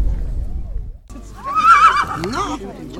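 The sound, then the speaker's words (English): A horse at an outdoor event neighs in a loud whinny that swells and wavers before trailing off, set against a steady low background rumble, with people's voices faintly around it. “This is after the event. The children are allowed to stroke the horses.”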